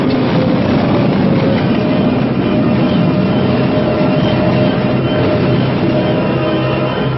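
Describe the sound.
Runaway train from the trailer for the 1976 film Silver Streak, a loud, unbroken roar of rail cars with dense rattling clatter and rumble holding steady throughout, with no voices.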